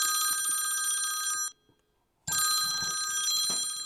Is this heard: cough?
no